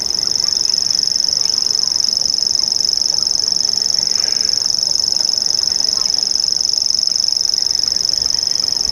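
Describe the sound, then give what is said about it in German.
A grasshopper warbler, a bird active at dusk and night, gives its high, sewing-machine-like reeling trill. The call is steady and unbroken, and it holds at an even loudness over faint background hiss. “Ja, das sind auch Vögel. Am Tag eher seltener zu hören, eher so dämmerungsaktiv, aber auch nachts, alle drei.”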